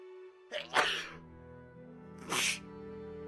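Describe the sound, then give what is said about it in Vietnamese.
Two sneezes from a man who is ill. The first is a long, breathy burst and the second is shorter, both over a steady tonal background. “Thầy bị ốm mà, tự dưng hắt xì nhiều thế.”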